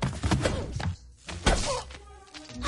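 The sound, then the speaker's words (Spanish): A bat strikes a robot with dull, heavy thunks, a few loud whacking impacts amid dense, clattering action noise. “le golpea con un bate.”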